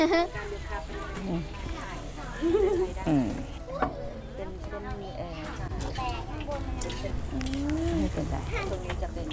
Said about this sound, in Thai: อันนี้คือเอามาทอดที่มันสุก ค่ะทอดให้มันสุก